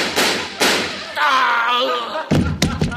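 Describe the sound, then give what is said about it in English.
Staged gunshot sound effects in a radio comedy sketch about a break-in: a few sharp, loud bangs, with a voice speaking between the early and late shots. “Give me that gun. I'll teach you to break into people's houses. No, no, don't shoot. Please don't shoot. Take that.”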